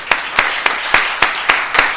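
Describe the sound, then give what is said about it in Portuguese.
Clapping in a city council session: about eight sharp, evenly spaced claps in a steady rhythm, over continuous noise that sounds like applause. “Então, em nome do nosso parlamento, eu quero bater palmas para ti, porque que sirva de exemplo a todo cidadão da nossa cidade.”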